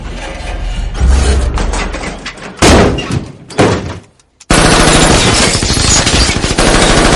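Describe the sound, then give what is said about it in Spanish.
Machine gun fire from a car's rear door in a street shootout in an action thriller: loud rapid bursts and heavy thuds, a brief near-silent gap, then a long sustained volley of shots. “Los y Luis disparan con la ametralladora desde la puerta trasera y acaban con todos los hombres que quedan en la calle.”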